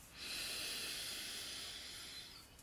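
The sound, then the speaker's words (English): A long, deep inhale taken during a guided breathing exercise: one soft, steady, airy hiss lasting about two seconds, faint and with no talk over it. “And let's take a nice deep breath in, first one of the day for some of us.”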